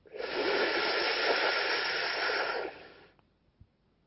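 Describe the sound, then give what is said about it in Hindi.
Sheetkari breathing exercise: one long, steady hiss of breath drawn in through clenched teeth for about three seconds, then fading to near silence with a faint soft puff. “दांत मिलाएंगे आपस में, दांतों से सांस खींचते हैं और नाक से बाहर करते हैं”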